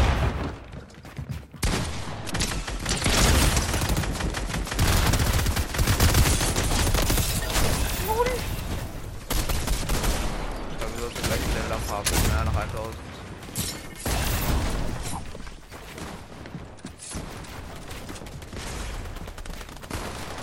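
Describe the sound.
Gunfire in the Fortnite video game: many rapid shots fired in dense, overlapping bursts, with loud volleys continuing almost without pause throughout.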